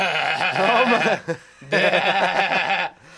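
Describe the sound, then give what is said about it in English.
A person's voice imitates a goat's bleat in two loud, wavering, nasal bursts separated by a short pause, each with a shaky quiver like a goat. “they make some sound that's really unattractive. Whoa. Which could be goat-like sounding, like”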